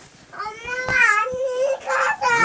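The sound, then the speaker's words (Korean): A young child crying, with loud, high, wailing sobs that hold steady tones and break briefly between breaths, continuing throughout. “왜 울어?”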